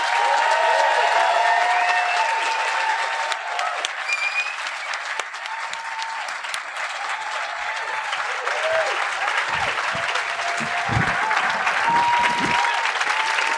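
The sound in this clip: Audience applause welcoming speakers onto the stage at a live event: dense, steady clapping from a large crowd that holds at an even, loud level for the whole stretch.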